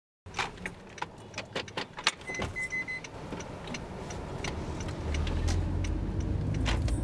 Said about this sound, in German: Ich fahre mit Lucimar nach Rio das Pedras.